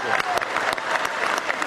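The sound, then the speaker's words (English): Brief audience applause at a climate summit in San Francisco, a loud, dense burst of many hands clapping with crisp individual claps standing out. “Give them all a big round of applause.”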